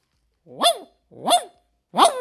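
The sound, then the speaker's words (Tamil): A human voice imitates a dog barking: three separate, loud bark-like calls at an even pace, each a sharp rising-then-falling yelp, with no other talk. “அடுத்தது விலங்குகளை பார்த்தீங்கன்னா ஒரு நாய் இருக்குது. நாய் எப்படி குறைக்கும்னா”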